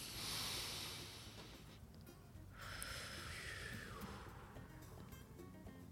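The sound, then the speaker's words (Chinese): Slow, deep breathing as people breathe in together, a long airy rush of breath that fills the whole stretch at a steady, fairly loud level with no talk over it. “让我们大家一起来深呼吸，然后感谢今天活着。”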